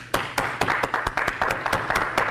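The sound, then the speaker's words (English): A church audience claps for a new baby, with sharp hand claps landing in a brisk, fairly steady rhythm, many distinct slaps standing out clearly above a quieter murmur of clapping. “let's give the Lord a hand clap for a new addition, a new baby in Martha's family, in Marsha's family.”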